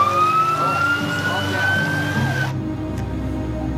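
Ambulance siren holding a loud, sustained wailing tone over a low traffic rumble, then cutting off abruptly after about two and a half seconds.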